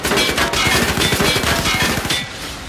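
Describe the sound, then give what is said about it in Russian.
Heavy-calibre machine guns fire in a dense, rapid, regular rattle of quick shots over deep low thumps. The burst stays loud throughout and eases slightly near the end. “Проходчики продвинулись вперед метров на 10, встали под углом и открыли огонь из пулеметов.”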